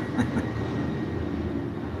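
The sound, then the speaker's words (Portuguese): An airplane climbing out of the airport in Lauro passes overhead as a steady, low, rumbling roar that holds evenly through the short stretch. “Tá passando um avião aqui, peraí.”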